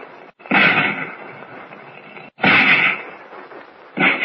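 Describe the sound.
Gunshots blast at a bunkhouse: three loud, booming reports, evenly spaced, each with a rough, drawn-out decay. The last one comes at the very end.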